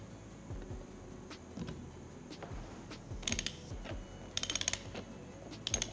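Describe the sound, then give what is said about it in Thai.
A wrench tightening a bolt loosely on a cable connection for a battery management system, giving faint ratcheting clicks in a few short bursts over a soft mechanical background. “เราต้องใช้ประแจนะฮะไอตอนนี้ก็ไม่ต้องแน่นมากก่อนนะฮะขันให้พออยู่ก่อน”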